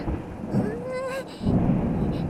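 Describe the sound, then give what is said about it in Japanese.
Rumbling thunder makes a loud, low, continuous roll with a rain-like hiss. It dips briefly midway, then swells again. “なんか雷がゴロゴロしてきたよね。”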